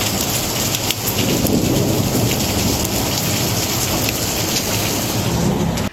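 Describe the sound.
Steady, heavy rain pours during a thunderstorm in Spain's Murcia region under a yellow rain alert, a dense constant hiss with low thunder rumbling beneath it throughout.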